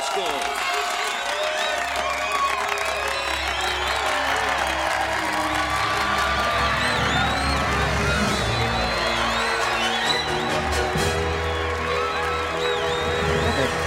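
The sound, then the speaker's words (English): A crowd cheers and claps for a line of cadets, with many excited voices shouting and whooping over a dense, continuous roar that stays loud throughout. “The cadets stand in a line as the crowd cheers.”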